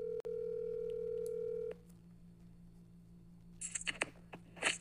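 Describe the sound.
A telephone call connecting on a call-in line: a steady dial tone holds, then cuts off abruptly. A few faint clicks and brief electronic chirps follow as the line connects, with no voices.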